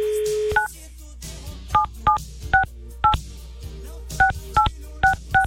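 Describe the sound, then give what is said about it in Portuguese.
Telephone keypad dialing tones: a steady tone, then nine short, loud beeps in an uneven rhythm, some close together and some spaced apart, as a number is dialed. “Vou ligar, peraí.”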